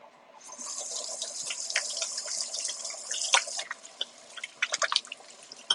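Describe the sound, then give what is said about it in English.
Water runs from a tap as hands are rinsed, a steady hiss broken by irregular splashes that grow choppier and louder toward the end. “Rinse my hands off just a little bit.”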